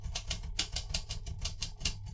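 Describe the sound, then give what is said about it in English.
Typing on a typewriter: a quick, fairly even run of many sharp keystroke clacks, quiet throughout, with no voices. “Why did you type that?”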